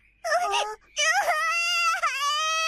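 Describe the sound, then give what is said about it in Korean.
A child cries in high-pitched wails: a short wailing burst, a brief pause, then a long sustained wail that breaks briefly before carrying on, loud and alone. “왜 울어? 울지 마.”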